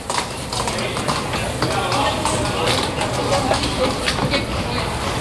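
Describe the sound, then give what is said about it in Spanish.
Horse hooves clip-clop as a fresh mount enters a bullring during a mounted bullfight, with many uneven hoof beats over steady, noisy background and voices present. “Va a cambiar la cabalgadura. Lea Vicens. Mientras que el toro está distraído en el burladero del tendido 4. Ahí entra. Entra como oímos.”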